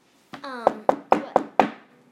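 Knocking at a door: five sharp, evenly spaced raps in a quick row, each with a short hollow ring.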